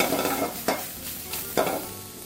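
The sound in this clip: A spatula stirs colored bell peppers and other vegetables frying in a pan over a steady sizzle, with two louder scraping strokes standing out.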